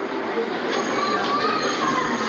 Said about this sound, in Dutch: Nou, we zijn net in Lviv aangekomen. We staan te wachten op het station tot we eruit mogen.